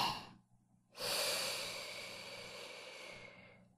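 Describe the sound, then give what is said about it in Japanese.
Slow, deep breathing: a short breath, a pause of near silence, then one long, steady breath that gradually fades, soft and unhurried. “大きく、深く、ゆっくりと。せーの、吸って”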